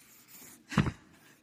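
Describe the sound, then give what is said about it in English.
A single short scratch of a pen stroke while drawing a trapezoid, faint and isolated against near silence. “What I'm going to draw instead is a trapezoid, okay? All right, here we go.”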